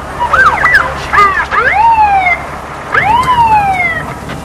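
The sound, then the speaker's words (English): A police car pulls up with its siren sounding: loud, rapid yelping and wailing sweeps in several bursts, then a pause and one longer falling wail. “A police car pulls up, and a female cop glares.”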